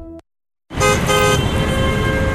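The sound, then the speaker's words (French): Car horns honking in a traffic jam: after a brief silence, several overlapping horn tones blare loudly and steadily over dense road noise. “Comme tous les jours à la même heure, on est dans les bouchons. Et ça klaxonne.”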